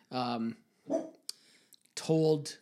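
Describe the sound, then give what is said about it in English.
A dog barking, a few loud bursts with the first and last drawn out and tonal, a shorter bark between them and small clicks in the quiet gaps. “that's our dog”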